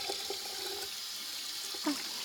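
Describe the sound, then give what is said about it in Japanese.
Running water wets a pair of hands, a steady soft hiss of flow with faint splashy patters and a brief brighter splash near the end, no voices. “僕はこうやって手を水で濡らして、”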